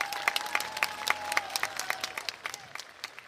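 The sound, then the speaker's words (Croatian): Audience applause at the Zenica Summer Fest, a live outdoor festival show: many hands clapping in a continuous, lively patter with a crowd murmur beneath, fairly even in loudness and tapering slightly toward the end. “Dajte jedan veliki aplauz za Kenu.”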